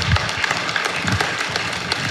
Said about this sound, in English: Yeah, you can clap. It's okay. It's all right.